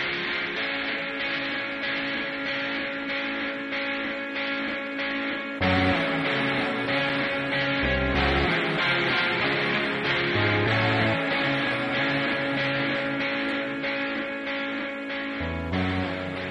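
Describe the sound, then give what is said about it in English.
An instrumental music bed from an Indemix advert plays as a slow builder, with steady sustained tones over a pulsing low end and a deeper bass entering partway through, at an even level with no voices. “that was the sound of the kind of music bed from the Indemix ad”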